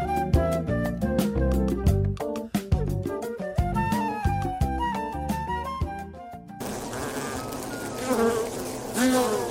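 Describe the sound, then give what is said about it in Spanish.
Native stingless bees of the Trigona and Melipona kinds buzz in a dense, droning hum with repeated pulsing onsets, turning into a rougher, noisier swarm buzz in the last few seconds. “Abejas. Abejas. Abejas.”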